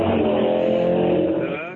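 A motorbike engine rides away with a steady, throaty drone and layered harmonics that hold level before thinning and fading slightly at the end.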